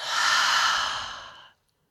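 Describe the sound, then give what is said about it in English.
A single cleansing breath exhaled through an open mouth during a guided breathing exercise, a steady airy whoosh lasting about one and a half seconds, strongest early and tapering off before it stops, heard alone without talk. “So full inhale in through the nose. Open the mouth and release.”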